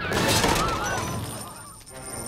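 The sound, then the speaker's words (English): A robot's head shakes and blows off in a loud rattling, crashing burst. The harsh noise is strongest at the start, then thins into a fading clatter and hiss over about two seconds. “the head just starts shaking and completely explodes off the robot”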